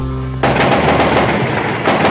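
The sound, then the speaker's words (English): Heavy gunfire from army troops firing on students gathered in a plaza in Mexico in 1968. A low hum breaks abruptly into a dense, loud, continuous roar of overlapping shots. “The army is here and they're firing. They're letting go with just about everything they have.”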